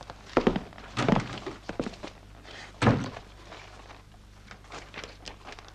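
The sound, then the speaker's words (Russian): Dull wooden thunks as a folder of newspaper clippings is pulled from a desk drawer: a few irregular, fairly quiet knocks and bumps separated by short pauses, with no voices. “достает из ящика стола папку, в которой вырезки из газет.”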